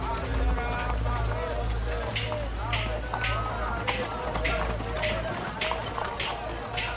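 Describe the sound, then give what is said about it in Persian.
A horse pulling a carriage through a city street clip-clops at a steady walking pace, a regular series of sharp hoof knocks over a dense, rumbling background with a low hum. “اسدالله سوار بر کالسکه به جایی میره.”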